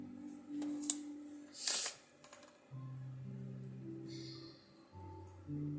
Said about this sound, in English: I'm pulling the cards.